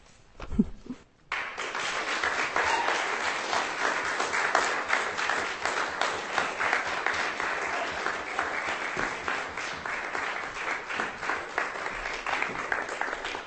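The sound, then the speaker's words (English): Audience applause at a reading event follows a brief low thump, then swells into dense, even clapping that holds at a steady level to the end. “Give her a hand.”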